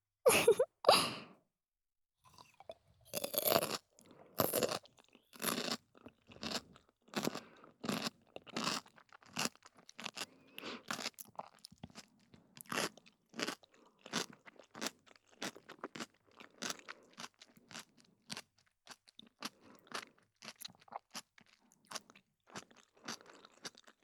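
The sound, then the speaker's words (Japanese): Crunching and chewing of pickles, with many crisp, sharp bites and wet crunches in an irregular rhythm. The sound is fairly quiet, has short gaps between bites and no talk. “漬物の種類で全然音変わりますね。これすごく楽しいです。”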